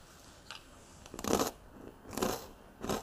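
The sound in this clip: Crisp crunching and chewing as crackers topped with strong cheese and home-grown tomato are bitten. A few dry bursts come roughly a second apart, quiet overall, with no talk.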